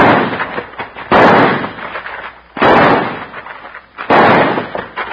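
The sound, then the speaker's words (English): Three loud gunshots ring out at evenly spaced intervals during a western drama shootout. A man fires to pin down an opponent while his partner tosses a gun through a window. Each sharp blast trails off into a long, rumbling decay. “Let me blast away at him to spoil his aim while you try to toss that gun through the window.”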